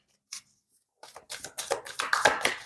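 Playing cards are shuffled: one quick click, a short pause, then a rapid riffling flutter of many crisp snaps that grows louder toward the end.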